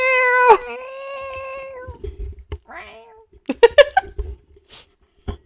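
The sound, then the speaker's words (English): A cat meows indoors with one long, loud, drawn-out meow lasting about two seconds, followed by people talking with scattered bumps and short sounds. “I hear a cat. Oh, yeah, of course she would come as soon as we start recording.”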